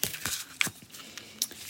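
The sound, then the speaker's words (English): Soft papery handling of a deck of Goddess Guidance oracle cards being shuffled, with a few brief, crisp rustles and flicks. It is quiet and has no talk. “I'm using my goddess guidance oracle cards today. They're nice. And I'm just going to ask, what do they want us to know today?”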